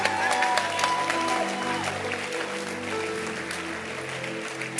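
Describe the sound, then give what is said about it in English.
An audience claps, a dense, steady wash of applause that holds at a fairly even level through the whole stretch. “Can you clap again? I feel excited.”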